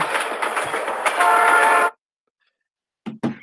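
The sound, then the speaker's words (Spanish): A train rumbles past with a horn sounding over it. The loud, steady rush cuts off abruptly after about two seconds into silence, and a couple of brief thumps follow near the end. “ya sonó el tren”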